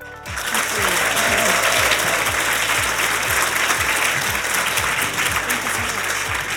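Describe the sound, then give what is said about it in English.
Loud applause from the audience at the Women in Payments Symposium in London, thanking a panel: a full, sustained burst of many hands clapping that starts quickly and stays steady for several seconds. “I invite this wonderful audience at the Women in Payments Symposium here in London to join me in thanking the panel.”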